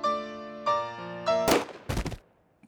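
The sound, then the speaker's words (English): A pistol gunshot rings out as a staged sound effect: a few sustained musical tones give way to a sharp, loud burst, followed shortly by another cluster of cracking impacts that quickly fade. “I shot him directly in the head”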